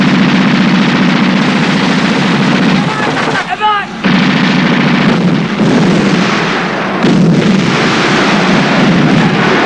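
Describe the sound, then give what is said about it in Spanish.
A wall and flammable barrels explode in a loud, sustained roar of blast and rumble that fills the whole clip, briefly dipping partway through before surging back up. “El muro y unos barriles inflamables saltan por los aires. Guardias y nómadas ven la explosión desde la plaza.”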